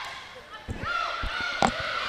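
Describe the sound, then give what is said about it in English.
A volleyball serve struck by a senior captain in a Penguins versus Hawks match, heard as a few sharp, hollow thumps under a commentator's steady talk. “here's a serve”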